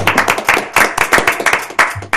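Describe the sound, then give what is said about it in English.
Applause at a city council meeting as a group welcomes a new county commissioner: loud, dense clapping from many hands, steady and continuous throughout, with no talking over it. “We should give her a round of applause for her new leadership at the county.”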